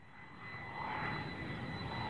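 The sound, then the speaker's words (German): Airliner coming in to land at Zurich Kloten airport in the evening: a broad, steady engine roar with a thin, high whine that swells slightly and then holds, with no voices. “Einen nach dem anderen. Sie kommen im 3-Minuten-Takt. Flüger, die zu Abend von Süden und vor allem von Osten her zu Kloten landen.”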